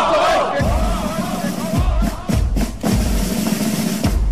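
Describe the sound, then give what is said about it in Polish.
People chip at the Berlin Wall with hammers and other tools. Irregular sharp knocks and thuds land a few at a time over a constant crowd murmur. “Dźwięk, który państwo słyszą, rozbrzmiewa wzdłuż całego muru berlińskiego. To ludzie przy pomocy młotków i innych narzędzi.”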